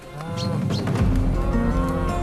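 Cattle mooing as they are herded back into their field, with loud, low, drawn-out bellows that overlap and swell into a long sustained moo through the second half.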